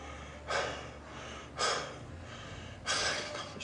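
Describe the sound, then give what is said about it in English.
A man lying in a kitchen panting heavily, with three slow, breathy gasps spaced about a second apart, each a rough rush of air, with no talk. “In the kitchen, Stu lies panting.”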